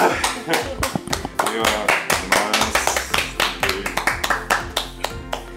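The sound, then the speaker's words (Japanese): Applause for a performer who has just played a wind instrument: dense, loud hand clapping with sharp, partly rhythmic claps throughout, and voices mixed in. “ミロさんに拍手”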